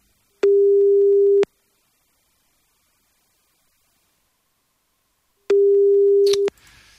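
Telephone busy signal while redialling a caller who dropped off the line: two long, steady mid-pitched tones, each about a second, separated by silence, the second followed by a short burst of crackling static.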